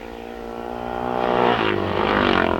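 A racing motorcycle's engine roars past during a road race. The loud, buzzing harmonic drone builds in intensity and stays strong throughout.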